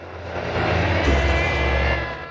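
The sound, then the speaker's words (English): A Norton motorcycle engine runs loudly as the bike is ridden off, its steady throaty drone building to a stronger rev near the middle before settling and easing slightly at the end. “He kickstarts the Norton, pushes it off its stand, climbs aboard, drops it into gear and rides off on it.”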